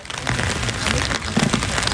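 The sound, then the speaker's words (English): Rain falls steadily in a huge cemetery of war graves in Magdeburg, Germany, making a dense, continuous hiss of drops without pause. “I'm stood in a huge cemetery in the capital of Saxony-Anhalt, Magdeburg. It's raining,”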